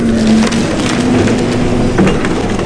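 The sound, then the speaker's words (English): Wood splinters and crunches as debris from a house that collapsed into the Atlantic through beach erosion is loaded into a dump truck in North Carolina, a loud, continuous grinding rumble over a steady low mechanical hum. “This is what it sounds like when a destroyed house is loaded into a dump truck.”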